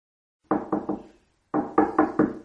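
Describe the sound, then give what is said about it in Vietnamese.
Knocking on a room door: three firm raps, a short pause, then four more. Each knock is sharp and loud, with no voices. “Khi cô sửa soạn xong thì có tiếng gõ cửa phòng.”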